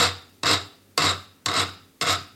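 A screw press being tightened down gives regular, evenly spaced rasping creaks. There are four clear strokes, each with a sharp onset that fades before the next turn.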